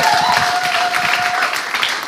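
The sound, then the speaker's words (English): A church audience applauds to welcome a guest preacher, dense steady clapping running throughout with a faint sustained tone beneath it. “So can we just give Ian a really warm welcome as he comes to bring God's word to us?”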